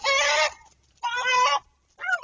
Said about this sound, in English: Now the hawk is threatening the viability of the reproductive cycle of the rooster, so the rooster goes at the hawk.